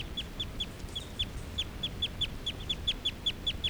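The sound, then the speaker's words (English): Calls of a male bird perched on another bird's cage, a rapid, evenly spaced run of many short, high-pitched chirps over a low background rumble, with no talk. “This is a call of a male who's right next to bird 378. On 378's cage.”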